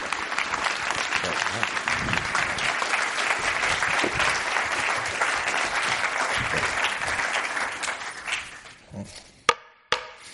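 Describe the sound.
Audience applause welcoming two speakers at a Commonwealth Club event: dense, steady clapping that holds for about eight seconds, then thins out and fades, with a few last isolated claps at the end.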